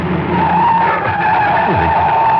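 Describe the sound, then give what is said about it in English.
Tires squeal as a car skids with its brakes and handbrake failing: a loud, steady, high-pitched screech that holds for the whole clip, with a low rumble beneath it. “Brakes aren't holding right. Damn it, I can't. No, the handbrake. Good Lord, the handbrake won't hold either.”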